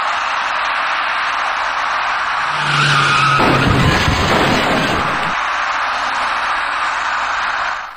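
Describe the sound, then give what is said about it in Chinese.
Tires screech loudly as a white minivan brakes and strikes an electric bicycle rider at a city intersection, the hiss swelling into a broad, harsh crashing burst as the bike goes down, then the steady road noise continues. “后面那位骑车人却被一辆由西向东而来的白色小客撞翻在路面上，骑车人和他所骑的电动自行车重重地摔倒在地”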